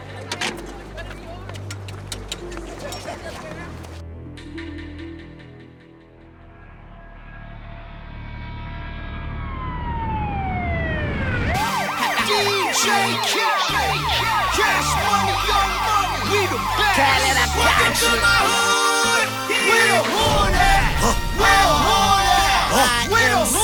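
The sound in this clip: A police car siren wails in loud, repeated rising and falling sweeps, starting after a few seconds with one long upward glide, over a music track while a man speaks.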